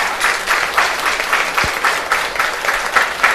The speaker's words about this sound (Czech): počkejte, ať ještě trošku zbyde toho tleskání.